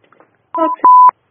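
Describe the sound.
Telephone tones announce an incoming call: a short chord-like beep, then a longer steady single beep, loud and alone with no talk.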